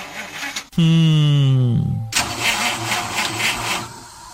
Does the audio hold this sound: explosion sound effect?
no